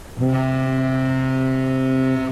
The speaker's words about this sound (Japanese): どうしたのかな船乗っててなんか不安になったのかな